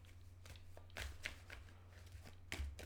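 Soft shuffling of a tarot card deck: faint papery riffles and light taps, with a few sharper snaps standing out.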